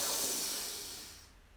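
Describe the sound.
A person breathes in deeply, a steady breathy rush of air that starts loud and gradually fades away, with no talk.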